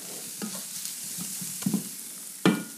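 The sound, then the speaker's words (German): Kohlrabi sizzling and browning in butter in a pan, a continuous hiss of frying with a few sharper clatters of stirring, the loudest near the end. “Schaut's, wie schön braun angeröstet. Das bringt uns halt auch den ganzen Geschmack rein. Und jetzt riecht die Butter auch.”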